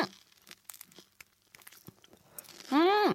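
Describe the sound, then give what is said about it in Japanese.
Crisp crunches of biting into a small, thin, golden-brown fried spring roll filled with thick sauce and bamboo shoots: many faint crackling bites, then a loud hummed "mm" from the eater at the end. “ちょっと小さめのね細めの春巻きなんだけどいただきます。”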